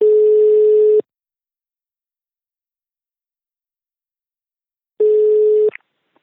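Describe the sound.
A telephone ringback tone on an outgoing call: two steady, even-pitched tones, the first about a second long and the second shorter and abruptly cut off, separated by a long silent gap.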